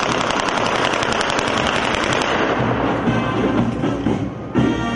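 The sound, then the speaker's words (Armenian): Rapid bursts of demonstration gunfire at the opening ceremony of a military exhibition form a dense, loud, continuous rattle of shots. The firing eases slightly in the second half, and a final sharp burst comes near the end. “Ցուցահանդեսը բացվեց ռազմական նվագախմբի և ցուցադրական կրակոցների ուղեկցությամբ։”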